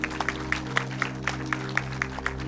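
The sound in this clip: Applause from a church audience welcoming the next speaker during a Labor Day service: steady, evenly spaced claps repeat over sustained low tones.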